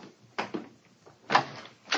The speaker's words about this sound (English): Come on, let's try this door.